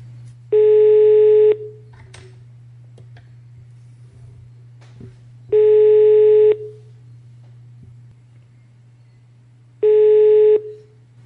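Ringback tone of an outgoing telephone call: three steady, mid-pitched one-second tones separated by gaps of about four seconds, over a constant low hum.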